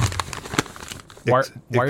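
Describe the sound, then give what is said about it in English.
A paper note being crumpled up gives a second of dry, crackling crinkles, followed by a voice speaking. “Why are you crumpling up my note?”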